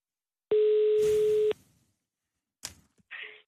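A telephone call tone sounds as a call is placed: one loud, steady tone about a second long, then a few clicks on the line and a brief, quieter return of the tone.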